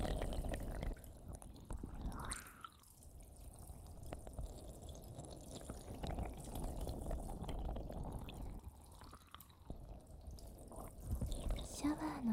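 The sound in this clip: Warm water poured to rinse hair from the right side during a hair wash: soft, continuous trickling and splashing, quiet and gentle, with a few slightly stronger gushes along the way.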